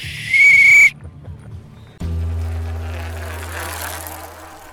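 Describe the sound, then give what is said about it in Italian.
A whistle blown during a cycling stage race to mark a change of segment: one loud, shrill blast of about half a second, followed after a short pause by a steady engine drone. “adesso si fischia.”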